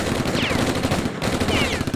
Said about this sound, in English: Stop shooting, he's gone.